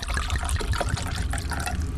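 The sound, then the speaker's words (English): Beer poured from a can, a steady trickling, splashing flow of liquid that stays even in loudness throughout, with no voices. “Let's start off the show like we usually do. Crack open beers and talk wrestling. Crack open a cold one.”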